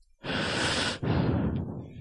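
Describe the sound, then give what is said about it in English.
A person breathes close to the microphone: two long, airy breaths in quick succession, loud and breathy, like a heavy sigh followed by another breath. “I hear you breathe over there.”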